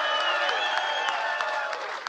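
Applause from a banquet audience for the Buffalo Launch Club: dense, steady clapping with crisp individual claps popping through, sustained at an even, fairly loud level for the whole stretch.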